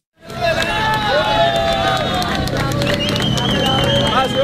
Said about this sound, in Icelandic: Því var ákaft fagna þegar Hernán Alberto Gil Flores, 43 ára öryggisverði, var bjargað úr húsarústum eftir jarðskjálftana í Venezuela í dag.